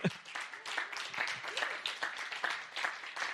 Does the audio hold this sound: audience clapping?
yes

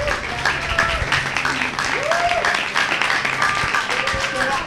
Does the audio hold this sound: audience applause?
yes

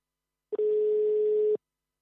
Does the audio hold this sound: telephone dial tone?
yes

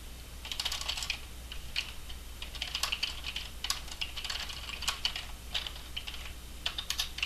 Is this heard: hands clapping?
no

